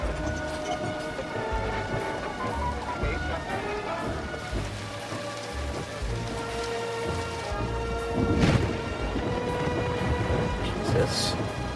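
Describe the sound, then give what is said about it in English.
Heavy rain pours steadily at night while thunder rumbles through it, the dense hiss of drops swelling into a louder burst of thunder near the end. “Nighttime. Mike drives back to Ned's through the heavy rain.”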